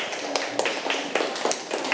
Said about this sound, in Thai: ถูกต้องครับปรบมือให้เพื่อนๆทั้ง3คนหน่อยครับ